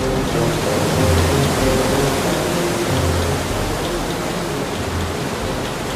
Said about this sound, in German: Schon von Weitem hört er das Rauschen des Flusses, Rattern der Maschinen und Dröhnen der Wasserräder.